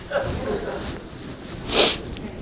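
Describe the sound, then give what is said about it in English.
A small, stifled sneeze: one brief, hissy puff of air that rises out of low background noise and cuts off quickly, muffled and held back. “That didn't even qualify to be a sneeze.”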